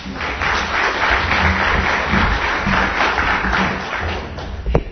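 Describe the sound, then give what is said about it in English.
Audience applause welcoming a speaker to the stage at a talk, a dense, even wash of many hands clapping that holds steady for the whole stretch. “I'd like you to put your hands together to welcome Rasa to the stage.”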